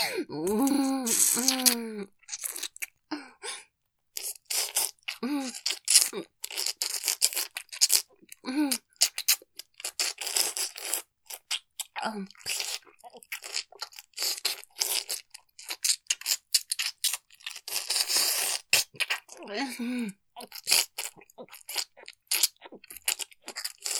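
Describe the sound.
Hard, crunchy food being chewed: many crisp, crackling bites and crunches come in rapid, irregular succession at a fairly low level, with occasional short vocal sounds between them.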